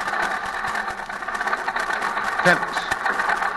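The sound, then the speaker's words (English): A vehicle motor runs rough with sand in its carburetor, a steady droning engine broken by uneven knocking pulses, with voices partly over it. “That motor sounds bad.”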